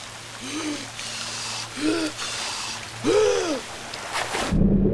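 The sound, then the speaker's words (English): Rain pours down onto a boat deck as a dense, steady hiss throughout, with a few brief warbling tonal calls rising over it. “The rain pours down on the baby alarm on the deck,”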